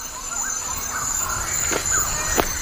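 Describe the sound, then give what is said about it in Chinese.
A male bird of paradise calls during its courtship display in a tropical rainforest, giving a couple of short, harsh calls over a steady background hiss. “这只极乐鸟正在努力为心仪对象献上一场精彩的表演，雌性的任务则是选择表现最好的雄性。”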